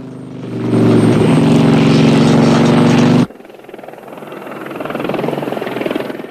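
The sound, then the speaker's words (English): A helicopter hit by gunfire circles with a loud, droning rotor and engine roar. The roar cuts off abruptly partway through, leaving a quieter, fluttering rumble that swells again toward the end. “The helicopter circles around the bike.”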